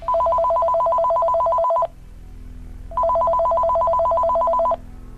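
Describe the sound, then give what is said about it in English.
A telephone rings twice. Each ring is a steady electronic trill lasting about two seconds, with a short pause between them, loud and alone. “The phone suddenly rings. You pick it up.”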